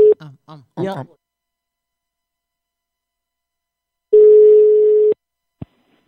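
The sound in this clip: Ringback tone of an outgoing telephone call: a single steady buzzing tone about a second long, coming after brief talk and followed by a faint click.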